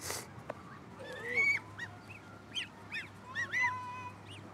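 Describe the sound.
Geese honk in a series of nasal, brassy calls, some short and some drawn out, scattered irregularly over a few seconds. The calls are fairly faint above a steady low hum.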